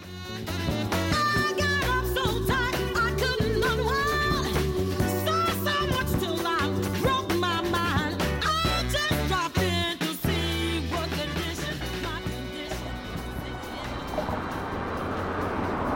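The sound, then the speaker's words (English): Loud, continuous roar of vehicles crossing a large bridge heading south out of Montreal, with shifting tonal whines riding over a steady rumble that eases slightly toward the end. “The sound you can hear is the sound of vehicles crossing over the Jacques Cartier Bridge, which goes south out of Montreal towards the United States border.”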